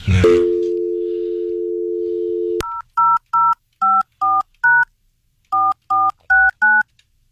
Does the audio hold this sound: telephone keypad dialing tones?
yes